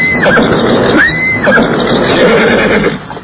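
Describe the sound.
Horse neighing on a road at night while being ridden: a few loud whinnies, each a squealing arc that rises and falls, over a steady rough background.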